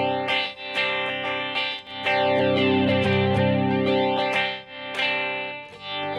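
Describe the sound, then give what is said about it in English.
A flanger effect device emulating tape flanging sweeps across a sustained, harmonic-rich distorted tone. Its comb-like harmonics glide up and down in smooth, musical, jet-like swooshes. “And what you're hearing is when you sweep, listen to the harmonic harmonics of the sweep. That's the closest I've heard of real tape flanging in a device.”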